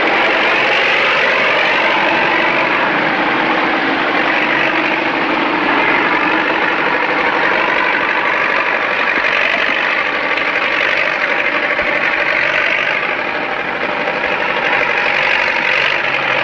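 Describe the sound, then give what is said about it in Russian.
Tractor engine running while it pulls a trailer loaded with sacks, a loud, steady, rough mechanical drone with a knocking texture that holds unbroken throughout, with no voices. “Поехали. Трактор тянет за собой прицеп.”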